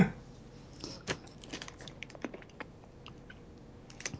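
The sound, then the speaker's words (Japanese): Open-mouthed chewing with faint, wet smacking: soft, irregular clicks and crackles scattered over a quiet background, with no clear rhythm. “くちゃくちゃ音。 ああ、全く気にしないでください。”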